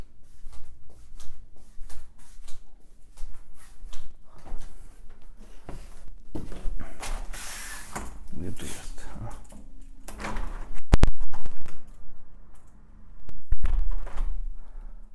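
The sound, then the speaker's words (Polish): A door being gently opened and closed, with soft handling and rustling noise followed by two sharp clunks near the end. “Teraz delikatnie otwieram i zamykam drzwi. I zamykam.”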